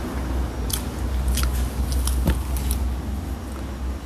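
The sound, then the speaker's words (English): Crunchy bites into a fresh, juicy apple, with a few crisp, sharp snaps of chewing and crunching standing out over a steady low background hum. “Hear me bite this apple. Hear me eat this apple.”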